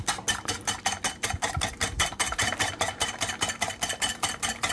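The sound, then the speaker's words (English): A whisk beats an egg mixture in fast, steady strokes, about four or five per second, making a bright, rhythmic scraping clatter that runs on without pause. “So I'm trying to like whisk this and see if like maybe if I whisk it, I'll be able to tell.”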